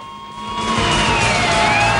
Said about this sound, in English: as police cars arrive